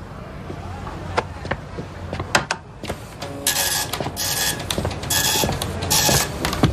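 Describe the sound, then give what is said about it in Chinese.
A printer printing a list of laundry customers, with a quiet mechanical whir and scattered clicks, then repeated rhythmic bursts as the print head makes its passes. “打印一份洗衣服的客人名单，楼下的没墨了。”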